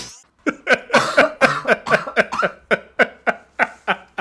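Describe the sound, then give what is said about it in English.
A person coughs many times in a fast, steady rhythm after straining their throat. The coughs are harsh, loud and evenly spaced. “Because that hurt my throat. It made me cough.”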